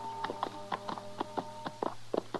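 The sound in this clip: Horses' hooves clip-clop as two riders approach a ranch. Many quiet, evenly spaced hoofbeats keep a steady rhythm over a faint low hum.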